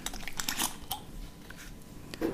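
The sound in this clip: Crinkling crackles as someone works open a chilled almond latte coffee drink container made with almond milk, a fairly loud burst of crunchy rustles and snaps with no talking.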